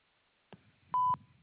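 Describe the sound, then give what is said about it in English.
A single short, clear voicemail recording tone beeps loudly, steady and mid-high in pitch, preceded by a faint click on an otherwise quiet phone line. “At the tone, please record your message.”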